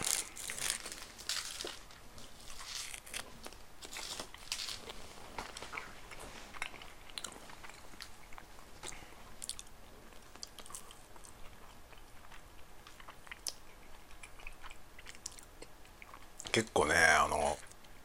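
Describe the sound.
Crunchy biting and chewing of a snack filled with vanilla ice cream and red bean, with wrapper crinkling; many small clicks and crunches continue throughout, and a louder crinkly burst comes near the end.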